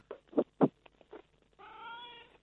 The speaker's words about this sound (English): What's that in the background? That's my cat, Buster.